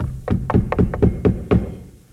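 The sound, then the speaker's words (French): Knocks announce the theatre curtain rising, heard as a quick, evenly paced run of several heavy, dull thuds. Each knock stands out clearly before the sound fades away. “Et trois coups. Et le rideau se lève devant les murs de Numance.”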